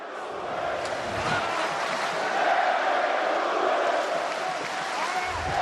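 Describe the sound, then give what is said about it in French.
A crowd sings and cheers for a fighter at a professional bout. The dense, steady roar of many voices swells slightly partway through and stays loud from start to finish. “Le public qui chante, qui encourage son combattant.”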